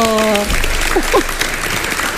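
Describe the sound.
Studio audience applause on a game show, requested by a contestant: a steady spread of clapping with brief voices sounding over it near the start and middle.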